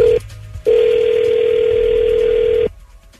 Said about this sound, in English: I'm dialing him up. Here we go.